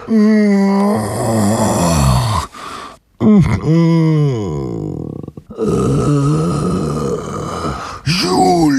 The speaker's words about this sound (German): Es klang wie ein Stöhnen, ein Ächzen, langgezogen und auch ein bisschen mitleiderregend.